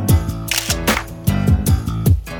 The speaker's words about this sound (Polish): Pan fotograf pod czarną płachtą zrobi pstryk.